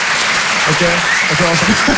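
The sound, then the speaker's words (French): An audience at a humor session applauds in a dense, steady wash of clapping while a voice talks over it through the second half. “Qui pense par applaudissement avoir le sens de l'humour, histoire qu'on capte un peu l'ambiance et de voir un peu, faites voir, faites voir.”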